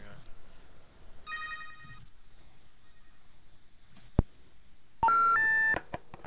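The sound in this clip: Telephone line tones from a call coming into a radio call-in show: a sharp click, then steady electronic beeps and tone bursts of changing pitch, following a stretch of low talk.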